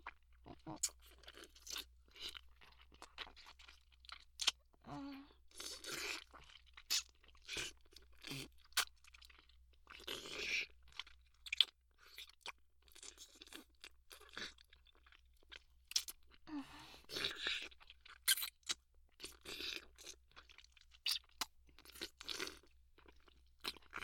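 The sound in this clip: Crunchy food being chewed: many loud, crisp crunches and bites in irregular bursts with brief quiet gaps, continuing for a long stretch.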